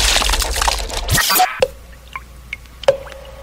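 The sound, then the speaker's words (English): Dripping blood sound effect: a few distinct wet drips, each with a short ringing tone, fall one after another following an opening burst of broad noise, loud against an otherwise quiet background. “The sound you hear is dripping blood.”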